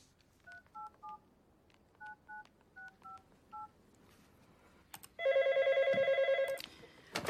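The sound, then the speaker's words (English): Number dialed on a phone keypad: eight short touch-tone beeps in small uneven clusters, then a loud, trilling telephone ring that lasts just over a second. “She checks the time and pulls out her phone.”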